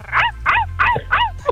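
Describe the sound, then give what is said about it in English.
A person imitating a dog barking: four quick, yelping barks in a steady rhythm and a short fifth at the end, a human voice copying a dog. “Oh, I can bark like a dog.”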